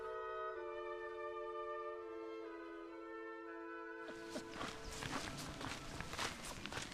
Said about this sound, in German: Wir laufen ein bisschen aus dem Wald heraus, runter nach Pfaffendorf.